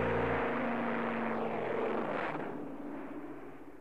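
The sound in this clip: An airplane takes off from a runway with a broad, rumbling engine roar that gradually fades away.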